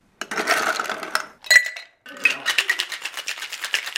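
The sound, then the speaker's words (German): Ice, Campari and vermouth are shaken hard in a cocktail shaker at a training-restaurant bar. A few clattering bursts give way to a fast, steady run of rhythmic icy rattles and clinks. “Eis in den Shaker, dann die Zutaten. Campari, Wermutsaft und kräftig geschüttelt. Fertig ist der Cocktail.”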